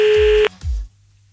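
A telephone line's ringing tone during a call: one steady electronic tone that cuts off abruptly after under half a second, then a brief low thump and near silence.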